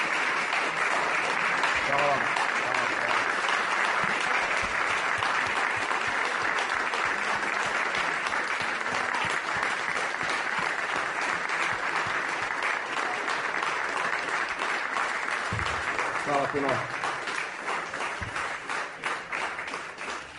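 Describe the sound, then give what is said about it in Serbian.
Sustained audience applause at an evening poetry reading held under the stars: a dense, even roar of clapping with brief voices rising from the crowd, running long before gradually thinning and fading toward the end. “Veliki aplauz.”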